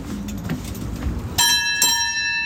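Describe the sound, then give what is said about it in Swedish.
A ship's bell on a steamboat, the kind rung in fog, struck twice in quick succession. Each strike gives a bright, clear metallic clang with a long ringing tone that sustains after a stretch of low background rumble. “när man är ute och åker då här i båten och behöver ringa i klockan, hur låter den då?”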